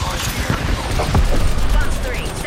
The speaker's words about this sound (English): Fire. I don't like it. It's a charged up rifle.